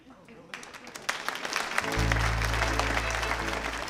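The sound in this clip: Audience applause at a storytelling event as a storyteller is welcomed to the stage: clapping that builds and thickens, with a low steady hum coming in about halfway.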